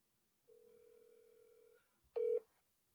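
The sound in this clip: A telephone dial tone hums steadily for over a second as a call is placed to a missing persons database hotline. After a short pause, one loud, brief beep sounds.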